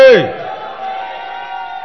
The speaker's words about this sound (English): Come on, shout to the Lord with a voice of triumph. Come on, shout glory.